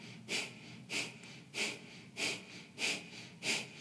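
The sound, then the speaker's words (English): Forceful nasal breathing from a breath of fire exercise in a breathwork session: six rhythmic, sharp, hissing puffs through the nose at an even pace, with quiet gaps between them and no talking. “Inhale through the nose. Exhale through the nose. Inhale, three quarter. Exhale, breath of fire.”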